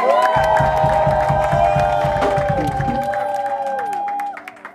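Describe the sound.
A church audience cheers and claps, with quick rhythmic clapping beneath sustained high shouts and whoops; the clapping stops partway through and the voices trail off at the end.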